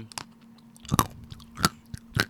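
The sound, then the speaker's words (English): Someone chews a Ghirardelli dark chocolate bar close up: a few sharp, crisp crunches spaced irregularly over quiet mouth sounds. “A little ASMR for you. I would definitely recommend getting any Ghirardelli dark chocolate bars.”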